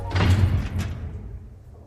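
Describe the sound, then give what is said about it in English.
A prison cell door shuts with one heavy, dull thud, then a low rumbling decay that fades over the next second and a half, with no voices. “After the door shuts behind him”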